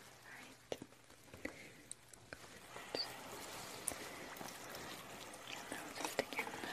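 Water runs and splashes as something is washed off by hand. The trickle is faint and continuous, with a few soft clicks and knocks scattered through it.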